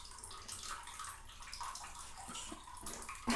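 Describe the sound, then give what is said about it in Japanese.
Water splashes and swishes in a bathtub while someone is being washed: a soft, continuous sloshing with small drips and gurgles, ending in a sharper splash. “脇も洗うよ。くすぐったくても我慢我慢。”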